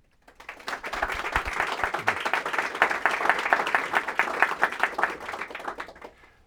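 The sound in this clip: Audience applause welcoming a speaker to the Voices in Leadership series at the Harvard T.H. Chan School of Public Health. Dense, even clapping swells quickly, holds steady for about five seconds, then fades out.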